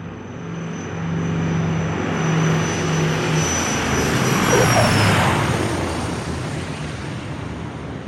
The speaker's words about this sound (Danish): Lige om lidt lander et fly i Bergen op i Norge.